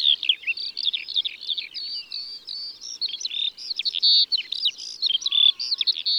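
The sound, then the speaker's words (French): Skylark song: a continuous, rapid, high-pitched stream of twittering trills and chirps with no pauses, sung by a single bird with no other sounds. “Ça va bien trop vite pour nos oreilles. Et puis, c'est un des chants les plus longs. Une phrase de l'alouette peut durer 5 minutes sans une seule pause.”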